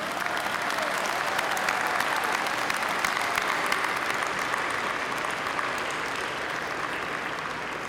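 Sustained applause from a ceremony audience honoring the achievements of this year's class campaign contributors, loud, dense and steady for the full eight seconds with no talk over it.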